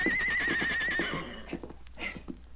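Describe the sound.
A colt lets out a loud, wavering whinny and then a few dull hoof thuds, steady and close together.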